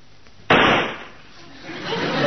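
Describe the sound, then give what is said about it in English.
A single loud gunshot as a man shoots himself: a sudden sharp burst that fades over about half a second into a steady hiss, which swells slightly again near the end. “Great Scott, he shot himself.”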